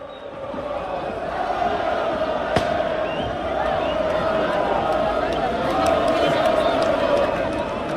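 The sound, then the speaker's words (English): About 60,000 Lens football fans welcome their team back after a Coupe de France win, producing a sustained, dense roar of cheering with a single sharp crack near the middle. “That is the sound of 60,000 Lens fans welcoming their team back after they beat Nice to win the Coupe de France for the first time in their 120-year history.”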